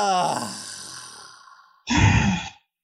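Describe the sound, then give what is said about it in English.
A deep breath taken on cue: a drawn-out voiced sigh fades away, then a brief, louder, breathy rush of air follows. No words are spoken. “So why don't you just go and take a nice deep breath right now and focus on that breath.”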